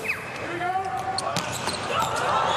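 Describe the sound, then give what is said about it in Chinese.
An Italian player's volleyball serve in a match against the United States: one sharp ball strike rings out over crowd noise while a commentator talks. “罗马诺的发球，”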